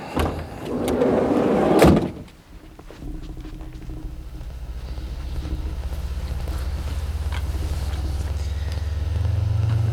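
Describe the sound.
A car starting and driving off: a rustling thump like a door closing, then a steady low engine rumble that holds and grows slightly louder toward the end.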